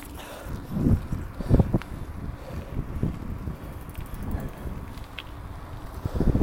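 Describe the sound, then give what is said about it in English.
Wind noise buffets the microphone during an outdoor bike ride, a low rumbling roar that gusts and swells unevenly. It stays fairly quiet throughout, with no talking. “You can hear the bike noise in the wind.”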